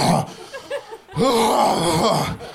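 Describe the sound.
A voice imitates heavy, worn-out breathing during sex: a short breathy passage, then a longer, louder stretch of panting, groan-like exhales with a strained, voiced tone.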